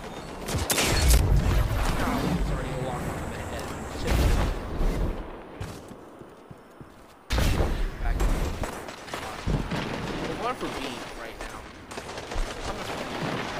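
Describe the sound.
Loud, repeated bursts of rapid gunfire in a capture-the-flag video game match, with sharp onsets and brief lulls between volleys, while players talk over the shooting.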